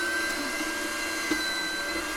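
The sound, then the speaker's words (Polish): An electric meat grinder runs steadily as it minces meat cut into small pieces through a coarse grinding plate, giving a continuous motor whine with a constant drone and no clear breaks. “Będziemy mielić teraz. Tak, najpierw kroimy w kawałeczki i mielimy, tylko musi być na grubych oczkach mięso zmielone.”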